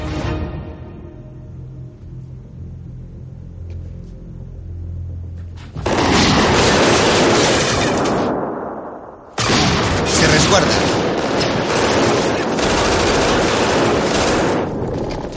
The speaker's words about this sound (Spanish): Dentro hay un fuego cruzado.